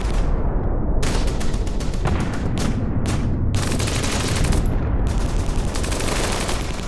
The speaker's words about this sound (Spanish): Y desde el anochecer hasta la medianoche, los alemanes nos disparan granadas de fusil y ametralladoras.